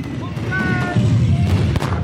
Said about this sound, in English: Suddenly, gunfire and explosions break the midday quiet.